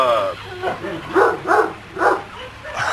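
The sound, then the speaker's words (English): An angry dog barks in a run of sharp, loud, whiny barks, several of them spaced about half a second apart, each rising out of a quieter low background. “Sure, the dog won't get out and attack us here. This is dog, an angry dog.”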